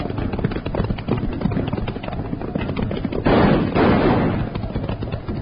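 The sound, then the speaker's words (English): Gunfire in a Western chase after raiders: many rapid cracking shots mixed with galloping hooves, sustained and busy throughout, growing denser toward the end. “Hold your fire, Jingles. We can't hit them from here.”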